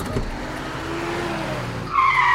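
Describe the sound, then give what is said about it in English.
A forklift skids across a warehouse floor, a steady loud engine-like rumble building into a sharp, high tire squeal near the end. “I don't think they know how to drive a forklift. Waffle and Martha! I drove into a giant pile of boxes.”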